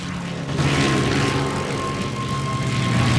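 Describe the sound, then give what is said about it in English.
A string of fighter planes taking off and climbing into the night sky, heard as a dense, continuous engine drone with a low roar and a faint steady tone running through it. “A faint band of daylight lines the horizon as a string of fighter planes take off and ascend into the pitch-black night sky.”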